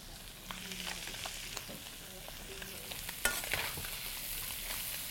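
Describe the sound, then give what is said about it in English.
Garlic and ginger frying in hot oil make a faint, steady sizzle, broken by scattered crackles and light stirring clicks, with one sharper scrape partway through. “Once your garlic and your ginger are in there, if your oil is hot, they do not have to cook for a long time.”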